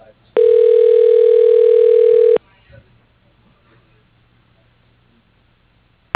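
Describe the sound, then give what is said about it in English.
A telephone line ringing during a call transfer: one steady, buzzy ring tone lasting about two seconds, then faint line hiss with no talk. “For your reference, you are being transferred to extension 110.”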